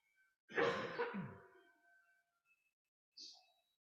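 A cough from someone with something caught in the throat: one rough, forceful burst that quickly trails away, followed by near silence and a faint brief rustle.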